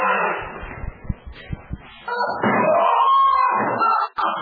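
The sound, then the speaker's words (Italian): Wild, beastly screaming amid beatings and violence: a few dull knocks and muffled noise give way to a sustained, wailing cry that holds loud for nearly two seconds before cutting off. “Grida belluine, mamma mia.”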